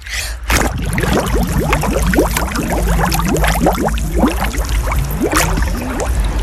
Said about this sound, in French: Tu essaies de faire un bruit de bulle là sous l'eau pour voir un peu ce que ça donne ? Vas-y.